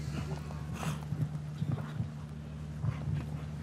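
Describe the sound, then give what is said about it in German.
A horse gallops through a turn in a show jumping round. Its hoofbeats come as soft, rhythmic thuds over a constant low hum. “So, auch hier die Wendung. Jeder Galoppsprung entscheidet über die Rangierung mit.”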